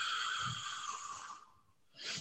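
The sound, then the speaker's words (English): A person takes a deep breath in and then breathes out during a doctor's examination: a long, airy inhale lasting over a second, a short pause, then a brief breathy exhale. “And then I'll have you just take a breath in and a breath out.”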